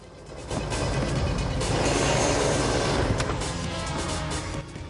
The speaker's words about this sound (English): uses a remote control unit to start his car's engine. The car engages first gear and rolls forwards.